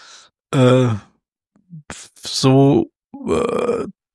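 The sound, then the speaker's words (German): A person's voice imitates asthmatic panting after running, producing several strained, wheezy breaths, groans and sighs in uneven bursts with short pauses between. “So, schön asthmatisches Schnaufen.”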